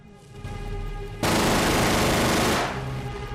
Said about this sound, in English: Farrier's right on the Messerschmitt's tail. He opens fire.